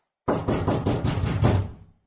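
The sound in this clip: Knocking on a door: a rapid, heavy run of raps lasting about a second and a half, closely spaced and fairly loud, then trailing off into silence.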